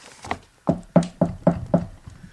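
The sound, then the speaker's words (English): Knocking on a camper door: a quick run of about six sharp raps in a fairly even rhythm, the first one lighter than the rest, with no voices. “The high-pitched barking grew more ferocious as he walked toward the camper door. He knocked.”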